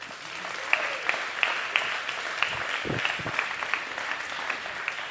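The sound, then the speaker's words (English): Audience applause at a church gathering welcoming a guest to the stage: dense, steady clapping throughout, with scattered sharper individual claps standing out above the wash. “So would you all give a warm welcome to our first guest, Alex Hall.”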